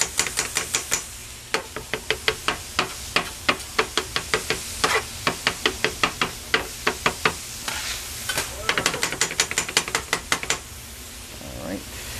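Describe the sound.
Ingredients being mixed with milk while cooking at a deli counter, many quick, regular stirring or whisking strokes in a steady rhythm, each a short sharp scrape, continuing for several seconds.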